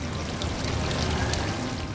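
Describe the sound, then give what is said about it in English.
Lake water bubbles up and splashes from an ornate indoor fountain in a Las Vegas casino, a steady, even rush of pouring and trickling water with no voices. “35 miles away in Las Vegas, water from the lake bubbles up from an ornate fountain inside Caesar's Palace.”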